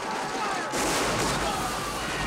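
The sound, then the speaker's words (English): Battle sounds of explosions, cannon blasts and gunfire tearing through an army, a dense roaring barrage that swells louder after a brief opening and then holds as a continuous wall of noise. “Explosions and gunfire tear through the army.”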